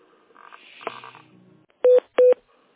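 Two loud, steady touch-tone beeps from a telephone keypad as an office call is transferred to another line. They come close together after a quieter stretch of fainter sound.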